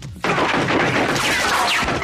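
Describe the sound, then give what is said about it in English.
Gunfire erupts in a film robbery scene as a gunman opens fire on an armored police cyborg. After a brief quiet moment it bursts in abruptly, then stays a loud, dense, continuous crackling volley to the end. “And then just repeats fuck me over and over and over again as he opens fire at RoboCop.”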